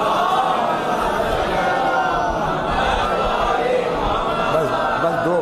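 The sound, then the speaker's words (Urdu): A crowd loudly chanting the salawat together, a dense, continuous roar of massed voices that lasts throughout. “نعرہ سلوات بلند کر دیجیے”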